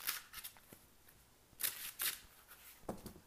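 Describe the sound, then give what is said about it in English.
Tarot cards being shuffled, with some falling out of the deck. Faint bursts of papery riffling and soft snaps recur a few times, separated by quiet gaps. “Okay, so we have some cards that fell out.”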